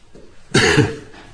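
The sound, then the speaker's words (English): A single cough from a person with a chesty cough, a sharp, harsh burst that quickly tails off, with only faint background noise before and after. “It's just a cough, just the lungs filling up.”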